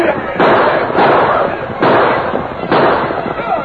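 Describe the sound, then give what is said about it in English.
Gunfire sound effects in a radio drama shootout, with ranchers and homesteaders riding hard and shooting at a ranch house: a few loud, blasting shots in irregular succession. “Riding hard, the homesteaders and the ranchers fired on the Indians.”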